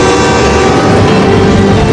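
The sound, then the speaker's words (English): Rumble of an approaching train, a dense, loud, steady roar that holds at the same level from start to finish. “Oh! Mister, there's a train coming!”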